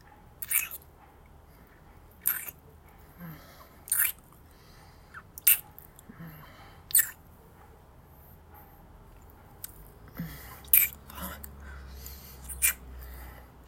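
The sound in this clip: Soft, wet kissing sounds repeat every second or two in a slow, uneven series over a quiet, hushed background.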